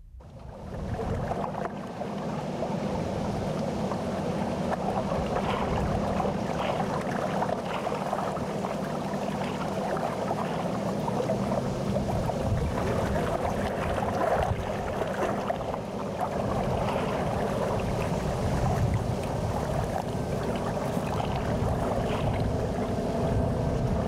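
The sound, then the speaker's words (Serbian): Water and wind from a boat's wake washing onto the sandy bank of the Rhône river make a steady, unbroken rushing noise throughout. “nestaje pod talasom koji je podigao brod koji se zalete uz Ronu. Izgledalo je besmisleno postavljati mikrofon. Mikrofon ima samo jednog pravog neprijatelja i to je vetar.”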